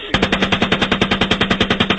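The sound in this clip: A machine gun fires one sustained, rapid burst of many rounds in an even, hammering rhythm. The shots are loud and come alone, with no voices.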